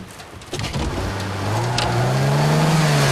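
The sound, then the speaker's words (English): A car engine revs hard while the car sits stuck in ice-covered bushes after sliding off the road; the loud engine tone climbs steadily in pitch and holds strong to the end. “Jim revs the engine. The car's stuck.”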